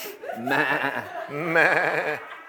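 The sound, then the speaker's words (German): Two sheep bleats in a desert, each a loud, quavering, wobbling cry of under a second, separated by a short pause. “Und das Einzige, was du wieder zu Gesicht bekommst, sind diese schrecklichen Schafe.”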